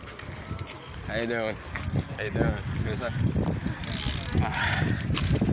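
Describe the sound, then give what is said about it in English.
A BMX bike ridden one-handed off-road over freshly cut city park grass rattles and whirs with mechanical clicks, with wind buffeting the microphone and a voice heard briefly. “I have a BMX. Like the Paperboy bike, Nintendo. Oi! I'll tell you, it's a tough ride, one handed pedal, but we have got it.”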